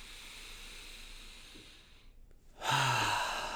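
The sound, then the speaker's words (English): A deep breath drawn in slowly through the nose, a brief near-silent pause, then a loud, breathy exhale out through the mouth, one full cycle. “let's just take a deep breath. Let it go, baby. Let it go. Another one. In through the nose, out through the mouth.”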